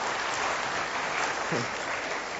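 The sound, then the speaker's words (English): Audience applause after a reading: dense, steady clapping from a group that holds at an even loudness throughout. “Round of applause, everyone.”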